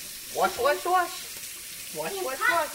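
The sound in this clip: Water runs at a kitchen sink as a mother gets her sons ready for dinner, a soft steady hiss under brief children's voices.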